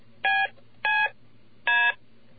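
Three short electronic keypad tones resembling touch tones, each a steady chord-like beep lasting about a quarter second, with a longer pause before the third, over a faint low hum.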